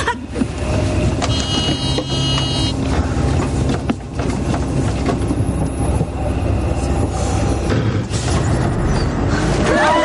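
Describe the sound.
A bus driving, with a loud, steady rumble throughout, layered with rattles and a few thin high squeals.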